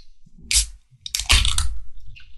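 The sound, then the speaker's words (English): A Red Oak beer is cracked open with a short hiss, followed after a pause by a longer, fizzing burst of escaping gas, fairly quiet overall. “I believe they just started canning their most popular Red Oak Amber Lager. But otherwise, I'm excited to crack this open and see what we've got here”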